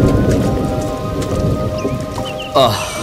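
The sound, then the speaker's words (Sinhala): Heavy, cold rain pouring down in a steady, dense hiss that fills the whole clip, with a short burst of voice rising over it near the end. “අප්පා කපාරටම පුදුම වැස්සන්න තාත්ත කලයන් වැඩුනේ.”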